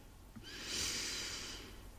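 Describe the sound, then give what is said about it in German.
A single slow, deliberate inhalation, performed as a simple breathing-relaxation exercise: a soft, airy rush of breath that swells gradually and then tapers off, faint and alone. “Die erste Übung ist also ganz bewusst einfach nur einatmen”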